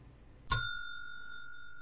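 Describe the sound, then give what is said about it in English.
A trading bell struck once, giving a single bright ding whose clear, high tone rings on and fades slowly over more than a second, heard alone with no voices. “the trading bell has rung, so let's get to the game.”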